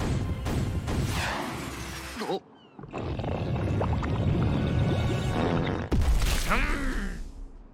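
A sea explosion power attack in a video game erupts as heavy roaring, crashing bursts. A brief dip comes near two and a half seconds, and a second loud crash with sweeping tones hits near six seconds.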